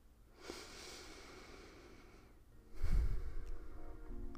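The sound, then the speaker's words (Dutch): A slow, deliberate deep breath: a soft airy breath near the start, a quiet stretch, then a fuller, louder breath that carries through to the end. “En haal af en toe even bewust diep adem. Laten we het samen doen.”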